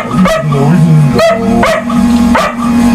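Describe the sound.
Dog barks within a song: a few short, sharp barks stand out over a steady musical backing with sung vocals throughout.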